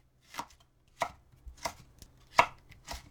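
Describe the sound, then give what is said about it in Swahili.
A knife chops a green bell pepper into long strips about five millimetres wide, making a handful of crisp, evenly spaced strikes with short silences between them. “Katakata pilipili hoho vipande virefu vya upana wa milimita tano.”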